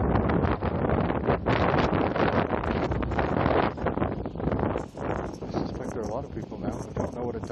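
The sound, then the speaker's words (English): Wind buffets a microphone outdoors in a breeze, making a loud, continuous roaring rush with a few brief dips in strength. “It's still breezy, but it's coming from behind me. So with any luck at all, and my body is protecting the microphone from the worst of”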